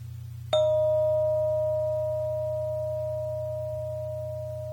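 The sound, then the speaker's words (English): One long, steady pure tone begins with a soft strike and decays slowly over about four seconds. It is still faintly present at the end, above a constant low hum. “So you're going to listen to the tone as long as it lasts, and when there's no tone left at all, raise your hand in the air”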